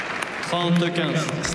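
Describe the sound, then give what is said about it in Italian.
Scattered claps come from Flavio Cobolli's player box during a tennis match against Félix Auger-Aliassime. A few sharp, fairly faint hand claps sound with a voice over them. “L'applauso dell'angolo di Flavio Cobolli, con il papà c'è anche Volandri, ci sono tutti gli altri,”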